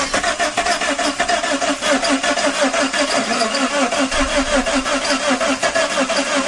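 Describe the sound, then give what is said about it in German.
A DeLorean's engine is being started. The starter cranks in rapid, regular, loud chugging pulses that carry on steadily throughout without clearly catching. “Da versucht Marty, den DeLorean zu starten, um wieder zurück ins Jahr 1985 zu kommen.”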